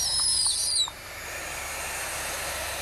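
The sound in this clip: A barn owl hisses steadily, a harsh, breathy rasp that runs through the whole clip. A thin, high whistling tone sounds over it during the first second.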